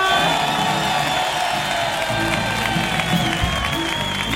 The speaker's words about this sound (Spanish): ¡Familia, mira cómo suena el público esta noche en el show del comandante Lara!